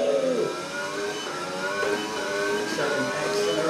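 A car accelerates out of a pit stop, its loud engine revving with pitch climbing repeatedly as it shifts up through the gears.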